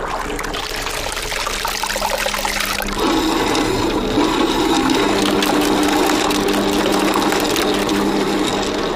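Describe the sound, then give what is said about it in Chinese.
A centrifugal separator spins fast to separate cream from milk for making ghee, giving a steady mechanical whir mixed with running liquid, which grows slightly louder and fuller after about three seconds. “利用离心原理，通过快速旋转，细腻醇厚的奶油从牛奶中被分离出来，这是制作酥油的基础。”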